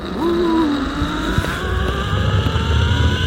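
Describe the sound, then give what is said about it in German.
A pulley on a steel zip-line cable whirs in a continuous whine as a rider speeds more than 200 metres high above a reservoir dam, with low rumbling underneath. “So klingt es, wenn man in luftiger Höhe an einem Seil über die Talsperre Pöhl flitzt.”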